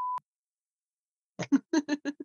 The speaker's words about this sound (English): If I take the bleeps out, it'll literally sound just like you.